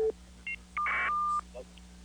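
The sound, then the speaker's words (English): Electronic telephone tones as a call is put through to a morning trivia contest: a short low beep, a brief two-note tone, then a longer, louder steady tone that cuts off. “Let's take the phone call.”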